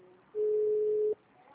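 During a telephone call transfer, a single steady, level-pitched electronic tone sounds for under a second over faint line hiss, then cuts off.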